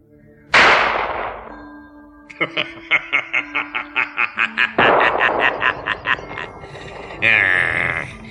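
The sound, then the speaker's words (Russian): A single sharp gunshot bang with a long decaying tail, followed by a quick run of rhythmic, snickering chuckle pulses and a final brighter burst. “Тогда я стреляю.”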